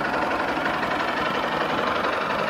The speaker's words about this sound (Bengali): আমি গাড়িটাকে অন করলাম, আমি ইঞ্জিন স্টার্ট করলাম। এখানে দেখেন আমার 1500 RPM পর্যন্ত দেওয়া আছে।